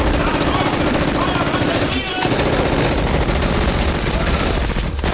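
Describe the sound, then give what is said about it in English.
Gunfire from soldiers shooting: dense, continuous rattling bursts of automatic fire, loud throughout, with voices partly buried in the din. “Oh, God, hold your fire, for the love of God, hold your fire!”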